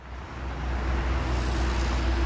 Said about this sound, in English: Hear that? That's the sound of traffic moving in Los Angeles.